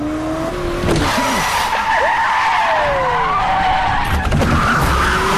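Tires squeal loudly as a car brakes hard during a chase up a one-way street. Shrill skidding tones cut in and out over a steady engine roar, continuous and loud for about five seconds.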